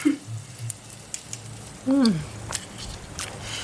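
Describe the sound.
Faint sizzling and scattered crackles as a first piece of food goes into heated oil, with a brief voiced sound in the middle.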